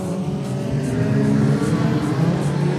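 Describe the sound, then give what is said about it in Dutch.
A race car on a circuit, leading the field, gives a loud, continuous engine roar through the whole clip. The tone is steady and broad with small surges in level, and no voices are heard. “Kevin Molijn, hier komt hij weer. Nog steeds op de eerste positie.”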